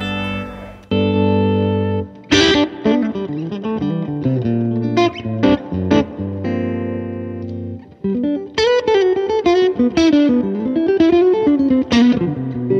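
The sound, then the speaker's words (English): Electric guitar played through a loud, versatile distortion pedal built for live use, with gritty chords ringing out between brief stops, then quicker picked notes in the final section. “So this pedal was designed for the live musician. It's really versatile and really loud, as you heard when I just turned it on.”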